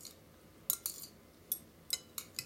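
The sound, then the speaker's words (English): Cutlery clinking against a plate during a dinner meal: several faint, sharp metallic taps spaced irregularly over a quiet background. “What you see me doing? I know you watching. I'm eating my dinner.”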